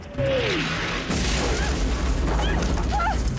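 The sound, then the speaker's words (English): Pirates firing a mortar: a sudden loud boom, then a second burst about a second later, with dense rumbling noise carrying on to the end. “As Quinn and Robin move the frame away, the pirates fire another mortar.”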